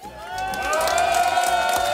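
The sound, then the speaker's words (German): A live audience at a radio summer tour event cheers, whoops and applauds in a dense, steadily building roar that stays loud to the end. “Ich sage mal Dankeschön an alle, die da waren, hier live beim Sommertourbus. Großer Applaus.”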